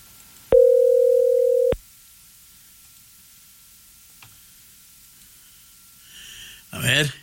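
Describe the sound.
A telephone tone on a stuck phone line sounds as one steady, flat, mid-pitched tone lasting just over a second and then cuts off. A long quiet hiss follows, with brief noises near the end.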